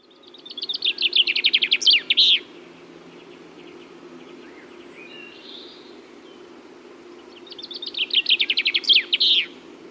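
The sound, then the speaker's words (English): Chaffinch song: two bright, rapid trilled phrases, each ending in a quick flourish, separated by a pause with a faint chirp, over a steady low hum. “we begin a new feature called Sounds of Nature, where we listen in to some of our native wildlife, starting this week with the humble chaffinch.”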